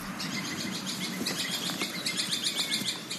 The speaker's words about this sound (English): This time there's a lot of bird calls going on. It's beautiful. Evening. Spring evening.